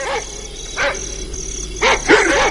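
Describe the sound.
Dogs barking: several sharp, fairly high barks spaced irregularly, with a few coming in quick succession near the end, over a low background hum.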